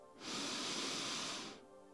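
A single slow, deep inhalation during a guided meditation: a soft, airy hiss that swells in and holds steady for over a second before fading, quiet and alone.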